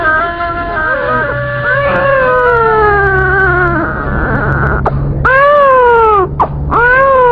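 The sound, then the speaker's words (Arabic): A baby girl cries from hunger in a radio drama, with a few long, loud wailing cries whose pitch slides downward, separated by short breaks. “البنية بتبكي من الجوع يا حمدة.”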